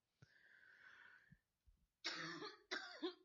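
Coughing from an irritated throat: two sharp, harsh coughs close together, faint and isolated, after a softer, raspy throat sound.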